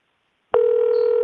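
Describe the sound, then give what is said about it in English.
A phone acting up gives off an electronic tone: after half a second of silence, one steady, fairly loud tone starts abruptly and holds unchanged to the end. “What in the world's going on with this demon phone?”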